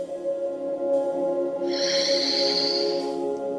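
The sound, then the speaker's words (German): A single long, airy breath during a guided deep-breathing exercise, rising over a soft, sustained musical drone that continues underneath throughout. “Und atme jetzt dreimal tief durch die Nase ein und durch den Mund wieder tief aus.”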